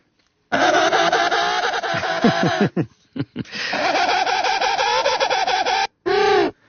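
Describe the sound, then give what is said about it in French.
Penguin call, a harsh, dissonant braying like a detuned guitar. Two long, loud harmonic phrases pulse with a rough, beating tone, separated by a few short staccato bursts and followed by one brief closing note. “Les manchots jouent de la guitare, en quelque sorte, en tout cas, font la même dissonance que vous venez de faire avec votre guitare. On écoute le manchot.”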